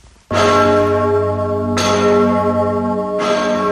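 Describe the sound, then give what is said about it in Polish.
A huge six-tonne church bell, the largest in Gniezno and rung only on special occasions, tolls three loud, deep strikes at a slow, even pace. Each strike leaves a rich, sustained humming ring that carries into the next. “To największy gnieźnieński Wojciech, sześciotonowy dzwon, święty Wojciech, który podobnie jak wawelski Zygmunt odzywa się tylko na specjalne okazje”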